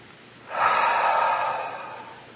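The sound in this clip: A single deep breath drawn in during a guided prayer exercise, a soft airy inhale that swells quickly, holds, then fades gently, heard alone without talk.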